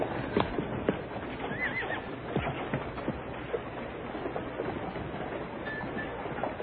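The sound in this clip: Horses with hooves clip-clopping in a steady, busy patter and a couple of brief, thin whinnies rising above the hoofbeats against a constant background rustle.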